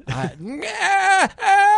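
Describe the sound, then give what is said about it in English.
A man's voice imitates the yell of a dying goat: a strained, groaning bleat that bends upward and wavers, broken into a few short bursts. “I made noises like a, you know, and I'm just like,”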